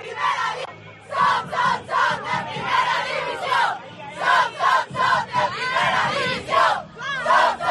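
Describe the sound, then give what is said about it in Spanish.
A women's football team cheers and chants after securing survival from relegation with a draw against Athletic Club in Bilbao. Many voices shout loudly together in rhythmic bursts. “Este es el sonido de la alegría, el sonido de la permanencia de las chicas de Sara Monforte,”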